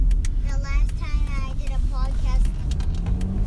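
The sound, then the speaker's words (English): Steady low road rumble from inside a car driving on the road, running under the whole stretch while people, including what sounds like a child, talk over it. “We're driving there right now.”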